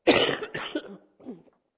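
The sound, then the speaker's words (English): A person coughing: two harsh, breathy coughs in quick succession, then a shorter, quieter throaty sound after a brief pause, with no talk. “I'm going to cough, sorry.”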